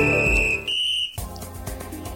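A steady, high-pitched electronic beep sounds on a morning radio show at 7:53. The single tone holds for about a second and then gives way to fuller, busier sound.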